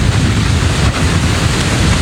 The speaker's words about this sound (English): We're here at Po'ipu Beach Park, and you can see the waves are pretty large. It's rather windy, and there's a lot of rain coming down right now.